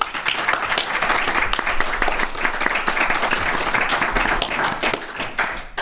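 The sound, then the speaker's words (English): Audience applause: dense, continuous clapping from many hands that stays at an even level throughout. “let's hear a big round for the good folks who brought us out here”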